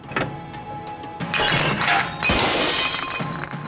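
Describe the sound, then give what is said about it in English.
Glass bottles pushed out of a glass drinks cabinet smash on the floor in several loud, overlapping crashes, each followed by bright tinkling shards that keep scattering. “opens a glass drinks cabinet and pushes the bottles onto the floor”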